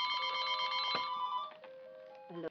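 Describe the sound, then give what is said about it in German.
A telephone rings during a lecture: a bright electronic ring with layered steady tones that holds, shifts to a thinner tone partway through and ends with a short burst. No one speaks over it. “Even telephone calls come in and say to us, they want to talk to us right in the middle of our lecture here.”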